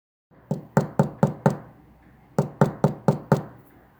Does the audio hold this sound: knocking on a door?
yes

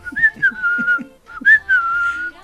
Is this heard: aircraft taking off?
no

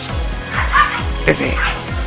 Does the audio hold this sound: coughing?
no

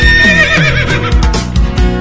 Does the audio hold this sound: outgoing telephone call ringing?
no

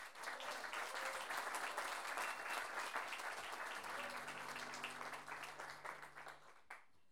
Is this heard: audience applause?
yes

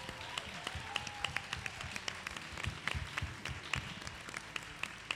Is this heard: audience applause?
yes

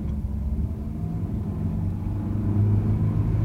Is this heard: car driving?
yes

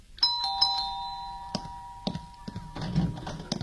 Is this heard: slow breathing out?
no

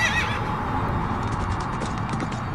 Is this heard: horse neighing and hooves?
yes

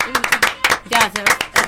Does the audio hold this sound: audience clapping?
yes

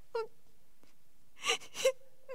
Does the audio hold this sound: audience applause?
no

